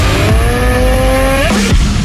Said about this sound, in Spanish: En CF Moto encontrarás motocicletas para cada aventura.